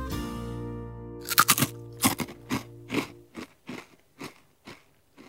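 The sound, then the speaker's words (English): Crunching of a Smith's potato chip chewed in the mouth: a quick cluster of sharp, crackly bites, then a steady run of many crisp crunches that gradually grow fainter, with no talking. “The next thing you hear is a snack in the mouth.”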